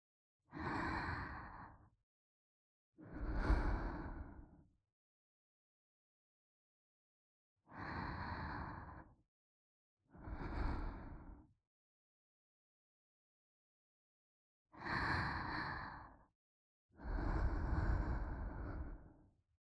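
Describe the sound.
A mother breathing slowly, offered as a lullaby to soothe a baby: six long, audible breaths like deep sighs, each followed by a pause of near silence, the breaths evenly loud and breathy.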